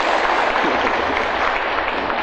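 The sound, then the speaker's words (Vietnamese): Audience applause after a song at a Buddhist monk's talk, steady dense clapping that holds at an even level throughout. “Nó hết bài rồi, quý vị vỗ tay giùm đi.”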